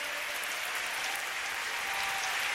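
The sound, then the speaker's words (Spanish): Dense, steady applause from an audience at a church worship service, a continuous hiss of many hands clapping for under three seconds at an even, fairly loud level with no voices over it. “Dale más fuerte ese aplauso.”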